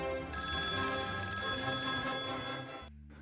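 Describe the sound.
A telephone rings with a steady, bright electronic trill that continues for nearly three seconds and then cuts off, leaving only a low hum.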